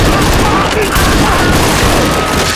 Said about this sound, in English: Pat Gunnarsson and Atticus Greed promptly wheeled their mounts about and charged across the way, and between them shot Emil and Juno a dozen times.